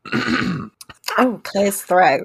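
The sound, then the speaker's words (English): A person clears their throat with a short, rough rasp. A few brief vocal sounds follow. “Clears throat.”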